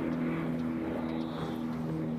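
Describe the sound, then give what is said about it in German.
Steady drone of a low-flying propeller airplane recorded outdoors: a continuous engine hum with strong low harmonics that holds an even, loud level without breaks. “Motorflugzeug. Und sogar tieffliegend.”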